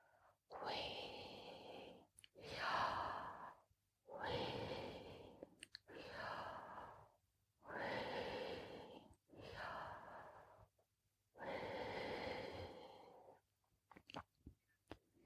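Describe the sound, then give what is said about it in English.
Slow, prayerful breathing in and out: a series of long, soft, airy breaths separated by short silences, each rising and fading gently at a low level. “Breathe Yah on the in-breath. Yah. And way on the out breath.”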